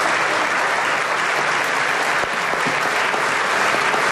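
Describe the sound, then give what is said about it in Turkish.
Members of parliament give Erdoğan a standing ovation in the general assembly: sustained, thick clapping from a large group rolls on at a steady, loud level with no break. “AK Parti, MHP ve DEM Parti grupları Erdoğan'ı uzun süre ayakta alkışladı.”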